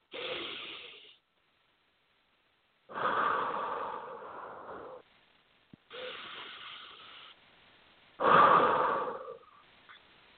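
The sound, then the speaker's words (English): Deep breaths in and out during a stress-relief breathing exercise: four long, airy, hissing breath sounds separated by pauses, with no talking. “So literally just breathe in.”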